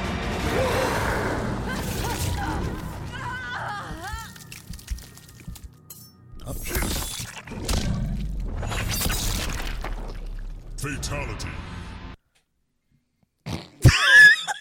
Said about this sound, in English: Scorpion is going to ignite himself and then shoot his entire body through Sonya Blade.